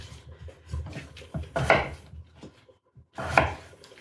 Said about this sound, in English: And then gradually add your potatoes.